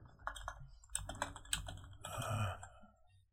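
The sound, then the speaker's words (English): Typing on a computer keyboard, with quick, irregular clusters of soft key clicks in several short bursts, fairly faint. “Oh, if I knew how to type. Come on. Come on.”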